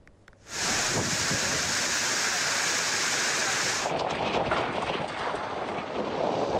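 A downpour with hail during a storm in Manisa surges in abruptly after a brief hush, then holds as a loud, dense, steady rushing roar to the end.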